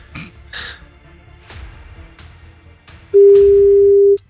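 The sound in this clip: A telephone busy tone after a call was cut off: one steady, loud mid-pitched tone that runs for about a second near the end, following a stretch of faint rustling and throat noises.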